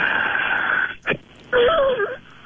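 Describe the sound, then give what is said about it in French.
A man forcefully breathes out during a breathing exercise, a long rough, wheezy exhalation followed by a brief gasp and then a strained, whistling wheeze that wavers in pitch. “Je veux vous sortir le plus d'air possible, puis si elle a râlé, ben ça râlera, comme on dit.”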